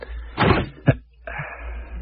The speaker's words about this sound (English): I think I've just about got it open. Stand back, everybody. Okay. I'm going to lift the lid here.